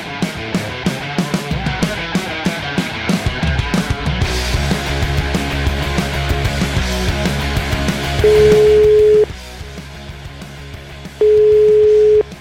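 A telephone ringback tone sounds while a call is being placed, two steady, even tone bursts of about a second each, separated by a pause, following a stretch of dense, busy background sound.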